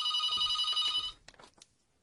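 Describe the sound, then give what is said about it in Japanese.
A telephone rings with a steady, bright electronic tone for about a second, then stops abruptly. Faint soft rustling is left after it. “あ、電話が来ています。”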